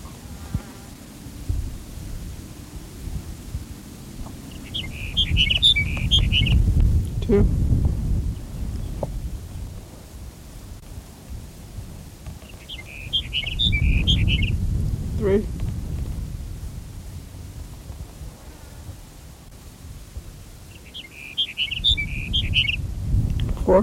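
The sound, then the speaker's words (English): Sage Sparrow calling about a mile from Benton: three short, high, thin twittering phrases spaced roughly eight seconds apart, each standing out over a constant low rumbling background. “Here's Sage Sparrow number 5 for 1 mile to Benton.”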